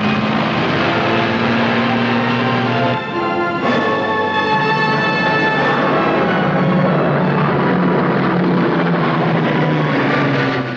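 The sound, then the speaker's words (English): A plane zooms low over a U-shaped valley, its engine a loud, sustained roar with a steady drone that dips briefly near the start and then holds strong to the end. “Officers observe from the ground as Jones' plane zooms over their heads.”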